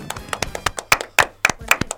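Applause during a radio show: a few hands clapping in scattered, uneven bursts of sharp claps, fairly loud and alone with no talk.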